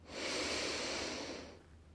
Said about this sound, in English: Take an intentional deep breath in